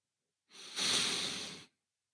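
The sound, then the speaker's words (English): A single deep breath during a guided breathing exercise: one long, airy rush of air lasting about a second that swells quickly and then fades, with no talking. “I breathe. I inhale deeply.”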